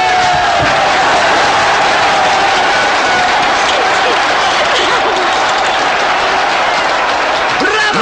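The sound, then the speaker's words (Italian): A large crowd applauds and cheers in a loud, dense, unbroken wall of clapping and shouting that holds steady throughout. “Due minuti di applausi!”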